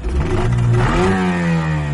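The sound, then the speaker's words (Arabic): The engine of a traditional fishing boat for line fishing runs with a loud mechanical rumble that revs up partway through and then holds steady. “رجعت إلى حيث قوارب الصيد التقليدية، وجدت عبد الكريم والمهدي قد أدارا محرك القارب.”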